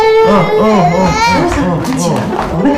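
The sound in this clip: A baby cries in wavering, sobbing wails with rising and falling pitch, an adult voice mixed in alongside the steady crying.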